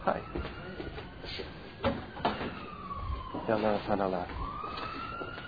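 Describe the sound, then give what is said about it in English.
A siren wails in sweeping tones, gliding down and then rising again, heard faintly beneath people talking. “There's a prayer you say, by the way, when you hear a siren.”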